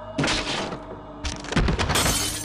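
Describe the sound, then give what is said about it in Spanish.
Glass shattering as a tray falls to the floor, scattering stewed potatoes and leaving shards in a small puddle: a loud crash, then a second, longer burst of breaking and clattering. “La bandeja a un lado, las patatas guisadas esparcidas por el suelo y los cristales sobre un charquito.”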